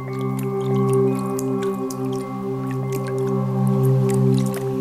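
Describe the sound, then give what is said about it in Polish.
Water drips in sparse, bright plinks over a steady, sustained tonal drone, evoking the calm atmosphere of a spa. “I to jest ten moment, gdy wodny element dźwiękowy powinniśmy zamienić w taki, który już na pierwszy rzut ucha kojarzy nam się ze spa.”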